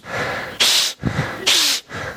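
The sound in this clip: A voice imitates the wet sniffling of a runny nose: two loud, hissing sniffs with softer breathy snuffles between them.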